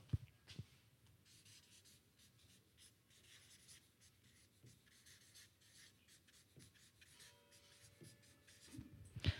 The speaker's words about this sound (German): Und deshalb schreibe ich jetzt mal in die Schnittmenge noch einen zweiten Begriff.